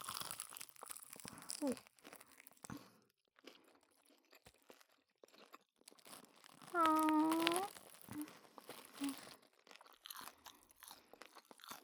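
Chewing of juicy meat: wet, crunchy bites and smacking come in irregular bursts, faint at times, with one louder, denser stretch of chewing partway through.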